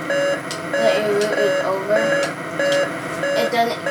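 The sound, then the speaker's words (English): Electronic beeping in a video game signalling that the route is over, a steady run of many short, mid-pitched beeps repeating over continuous background sound. “it beeps to notify you that your route is over”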